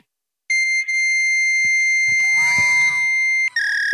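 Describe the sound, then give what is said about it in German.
Shrill electronic fax machine tones answer a phone call to a government agency office: a steady, piercing high whine holds for about three seconds, then briefly breaks and shifts to a different pitch. “Ich bin der Meinung, dass dieses Geräusch kommt. Pass auf, das ist jetzt ein Faxgerät.”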